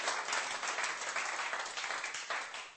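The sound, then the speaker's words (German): Audience applause for the guests: a soft, even patter of many hands clapping that stays faint and steady and eases slightly toward the end. “Lass uns nochmal unsere Gäste einen Applaus geben, dass sie hier sind.”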